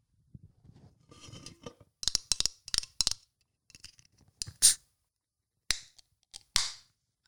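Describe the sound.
Crisp ASMR sounds made close to the microphone: sharp clicks, snips and scratchy taps come in irregular clusters separated by short silences, with no talking.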